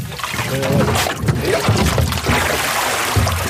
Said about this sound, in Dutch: Worden hier de kratten gewassen?